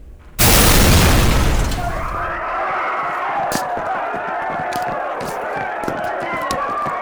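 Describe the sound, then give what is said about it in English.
A bomb explodes in a Dallas federal building: a sudden, massive boom roars for about a second and a half, then decays into a lower ongoing din with scattered sharp knocks and voices. “A bomb has exploded in a Dallas federal building.”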